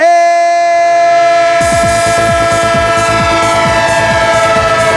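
A train horn holds a loud, steady chord, then rhythmic wheel clatter joins about a third of the way in and repeats evenly beneath the continuing horn, used as a sound effect.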